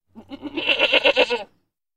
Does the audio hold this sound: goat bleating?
yes